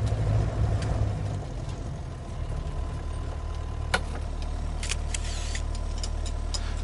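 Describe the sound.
A car engine idles as the car comes to a stop, a low, steady rumble with a faint mid-pitched hum, punctuated later by a few sharp clicks.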